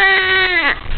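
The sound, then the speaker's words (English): A short crying sound effect resembling an infant's wail: one loud, sustained, high-pitched cry lasting about a second, its pitch bending downward near the end. “Just what Britney needs. More crying.”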